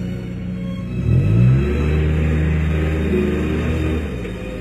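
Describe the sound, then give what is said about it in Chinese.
A car engine pulls away, a low rumbling drone that briefly swells in pitch and loudness early on, then holds a steady hum before easing off slightly at the end. “李青愤怒地开车走。”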